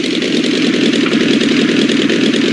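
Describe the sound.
An aircraft engine, throttled back to 1500 during the approach to landing, drones loudly and evenly with a fine pulsing texture that holds steady throughout.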